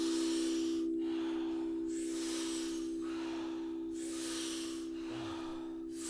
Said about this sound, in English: take 30 to 40 powerful breaths into the body through the mouth. And then you exhale also through the mouth, but it's a soft exhale. So powerful inhale, soft exhale. We do it rhythmically. We do it together. It sounds like this.